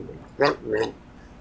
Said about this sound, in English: That's concentrated gargling. That doesn't count. Don't gargle whiskey?